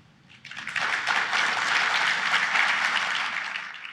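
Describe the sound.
Audience applause at a live stage talk on cryptocurrency welcomes panel speakers, rising quickly into a full, steady clapping that eases slightly at the end.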